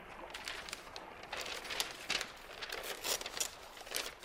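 Paper package being opened, with a steady crinkling and rustling of paper that carries on throughout, broken by many small crackles and a few sharper tearing bursts, with no voices.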